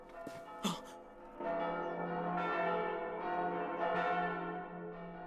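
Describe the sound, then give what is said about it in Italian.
Church bells ring with sustained, resonant metallic tones layered over one another. A few fresh strikes renew the shimmering hum, which stays fairly faint and steady throughout. “Le campane! Sono tornati!”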